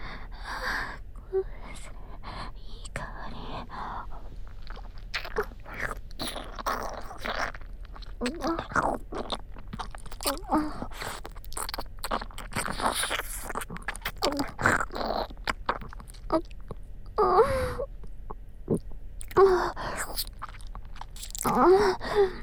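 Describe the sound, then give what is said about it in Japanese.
Biting and chewing hot food, with many quick, moist crunching and munching sounds in an irregular rhythm. Occasional gasping breaths come between the bites. “それじゃ熱くて美味しいうちにいただきます。”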